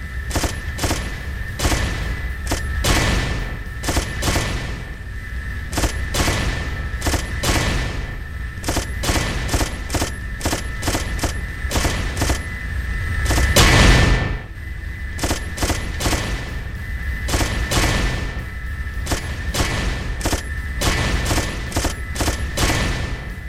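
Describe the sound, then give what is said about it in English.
Rapid gunfire in a video game shoots down incoming rockets: many sharp shots in quick, repeated bursts that continue steadily throughout, with one louder boom near the middle. “I'm gonna see if I can shoot down a bunch of rockets.”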